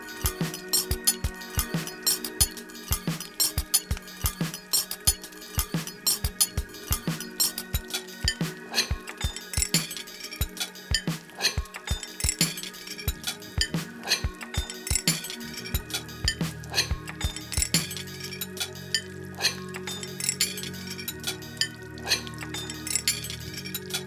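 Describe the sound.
Metal clinking as a pressure cooker is handled at a household appliance exhibition: many sharp clicks and clanks scattered throughout, over a faint steady background tone.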